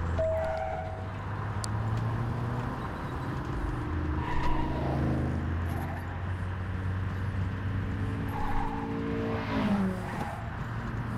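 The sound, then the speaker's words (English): Engine drone of a Hyundai Elantra driven in a driving video game: a steady, moderately quiet hum with shifting tones and brief tire squeals. “Actually, this is what this sounds like. It sounds like one of those, like, Hyundai Elantras.”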